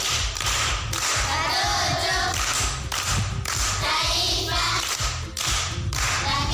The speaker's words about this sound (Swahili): Makofi kwa shangazi.